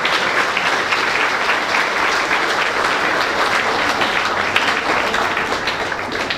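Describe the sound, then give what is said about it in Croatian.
An audience at an evening school gathering gives loud applause to welcome a speaker from the Šumadija district school administration. The dense, continuous clapping from many hands holds steady throughout. “Molim vas, pozdravite ga jednim velikim aplauzom.”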